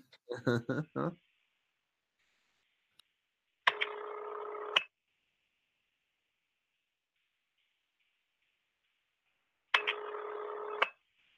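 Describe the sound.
Telephone keypad dialing tones sound as two steady electronic bursts, each about a second long, separated by a long silence, with a brief voice before the first burst.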